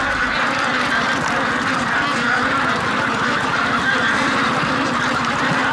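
A large flock of plump, well-fattened ducks quacks on a farm, the birds at their last day of fattening. Many overlapping calls form a dense, loud, unbroken chorus throughout, with no talk over it.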